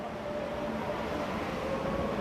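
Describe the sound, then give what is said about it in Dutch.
Metro train at a station, a steady, continuous rumble with a faint sustained hum running through it, no voices. “Ah, nu stappen ze in de metro. En weg zijn ze.”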